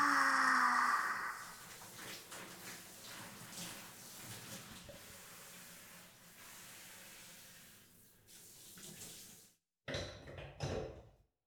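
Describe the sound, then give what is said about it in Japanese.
Hot water is poured over someone in a bath to rinse off soap suds: a quiet, continuous, splashing hiss for about nine seconds that then stops, followed by two brief, soft bursts of water. “湯かけて流してあげるね。”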